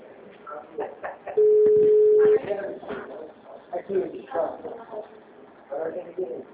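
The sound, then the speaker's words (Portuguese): A telephone line tone sounds once, a steady mid-pitched beep lasting about a second, set between stretches of people talking. “Grave o seu recado. Você só será tarifado após o sinal. O número está ocupado.”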